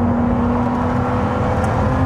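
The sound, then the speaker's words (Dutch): Engine of a Ferrari 296 Speciale sports car on a test drive, a loud, steady droning hum with a constant low tone and no voices. “Wouter test de Ferrari 296 Speciale.”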